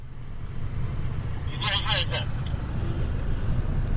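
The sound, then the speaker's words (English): A car drives through the streets of Sana'a, Yemen, amid rubbish and debris. Its engine makes a continuous low rumbling drone for the whole stretch. “I'm driving through the streets of Sana'a, the capital.”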